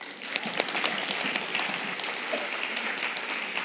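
Applause from a church audience during a Sunday service, a dense, steady patter of many hands clapping that holds at an even level for several seconds without a pause.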